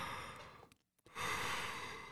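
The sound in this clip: A human yawn: a breathy intake that drops into a brief silent pause, then a louder, drawn-out airy exhale that holds steady to the end.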